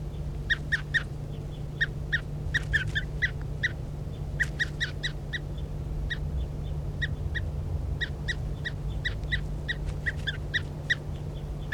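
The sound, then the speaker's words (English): A bird being handled calls again and again, giving many short, sharp, high-pitched chirps in irregular clusters over a steady low hum. “This is bird 3:35 being handled.”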